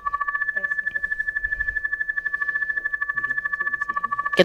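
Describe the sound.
A telephone rings as a radio call-in show redials a caller: a steady, rapid trill with a bright two-tone buzz pulsing many times a second, faint voices beneath, and a sharp click at the end.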